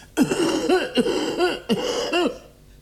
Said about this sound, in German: Ich huste ebenfalls und werfe ängstliche Blicke. Hustete hier wer? Ich tat es